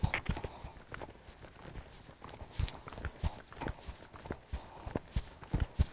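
Hoofbeats of a horse cantering during a riding lesson, many soft thudding strikes falling in uneven groupings, moderately quiet throughout.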